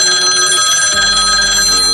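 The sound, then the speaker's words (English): A cell phone rings with a loud, steady electronic trill of high tones that runs unbroken throughout, with no voices. “Aoife's phone rings again.”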